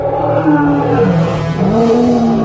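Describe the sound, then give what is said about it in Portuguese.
A lion roars, a loud, deep rumbling growl sustained throughout with low tones wavering and sliding in pitch. “um leão veio e o matou.”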